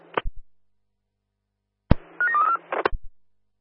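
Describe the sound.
Telephone dialing tones as a call is placed: an opening click, a long near-silent pause, then a short burst of beeping tones framed by sharp clicks.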